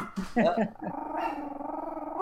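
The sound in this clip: A female dog growls in a long, low, steady rumble that follows a moment of speech.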